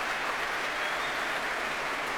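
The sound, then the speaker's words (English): A concert audience applauds the timpanist after an orchestral piece: a thick, even wash of clapping that holds steady for the whole stretch, with no separate voices or music audible. “That cheer is for him.”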